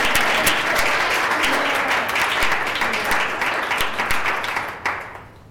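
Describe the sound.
An audience applauds to welcome a speaker at a talk on parenting children with differences. The clapping is dense and sustained, then thins out and drops away near the end.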